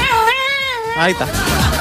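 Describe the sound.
A pet cat meows loudly, a long drawn-out, wavering meow followed by a shorter second one, fairly high-pitched and clear.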